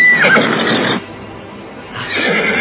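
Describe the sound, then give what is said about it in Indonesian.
A horse neighs with a loud, high whinny at the start, followed by a quieter stretch of rough noise that swells again toward the end. “Apakah ada kuda yang lepas? Ya, itu suara kuda kita.”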